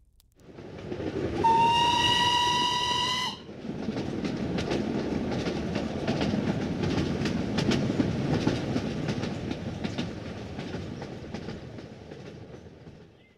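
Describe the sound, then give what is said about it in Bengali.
A train gives a steady whistle for about two seconds, then the loud, continuous rumble and rattle of the moving train carries on alone until the end. “স্বল্প সময়ে train যাত্রা করে আমরা অবশেষে mister হোল্ডারের বাড়ি fair ব্যাংকের সামনে এসে পৌঁছালাম।”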